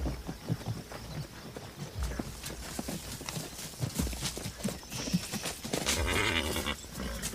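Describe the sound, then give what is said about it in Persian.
Horses' hooves clip-clop as they walk, with riders dismounting beside a tree; many uneven hoof knocks are spread through a steady, noisy background. “جیران و گلنسا به سمت درخت عشق میرن و از اسب پیاده میشن.”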